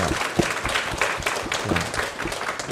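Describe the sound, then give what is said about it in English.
Applause from a church audience welcoming first-time visitors: many overlapping hand claps form a dense, steady patter that holds at an even level throughout. “So we just want to welcome all. 我们一起拍手，欢迎新朋友。”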